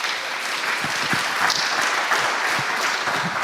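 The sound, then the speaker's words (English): Audience applause after a speaker at a talk event: dense, steady clapping that holds at an even, fairly loud level throughout, with no voices over it. “So big applause again”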